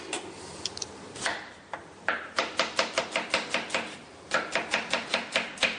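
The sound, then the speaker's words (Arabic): An onion is chopped with a knife into thin julienne slices on a board, giving many quick, crisp, evenly spaced strikes in two rapid bursts separated by a short pause. “البصل هنقطعه بنفس الطريقة.”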